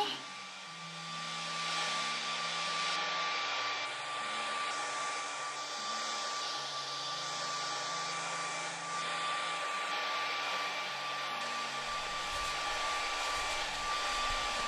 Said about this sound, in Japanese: ほら。ささっと乾かしちゃいますね。